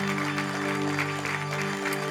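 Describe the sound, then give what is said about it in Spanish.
Church audience applauding, a moderately quiet patter of many hands clapping with a steady tonal drone held beneath it throughout. “¿No le das un aplauso por ello?”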